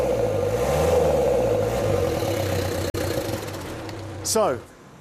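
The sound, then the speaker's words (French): A turbocharged car engine from an old champion's car, with a fault where oil leaks through the turbo seals into the intake, idles with a steady drone. It then takes a short throttle blip that swells and drops back. “On va voir si ce turbo fonctionne. J'enfile un gant ici, un coup d'accélérateur.”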